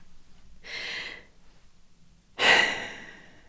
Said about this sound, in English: Let's just take a breath. Wait.